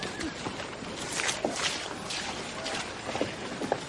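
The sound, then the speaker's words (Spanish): Footsteps of a woman walking through mud in a Western drama, heard as a few soft, irregular squelching steps over a low, noisy background. “Alma coge a Sofía en brazos y sale del hotel. Joanny y Charlie la observan. Le daré el dinero luego. Alma camina sobre el barro.”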